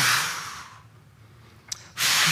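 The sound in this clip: A voice imitates the hiss of incense poured onto an altar: a broad, breathy hiss that fades, pauses briefly, then returns loud and sustained.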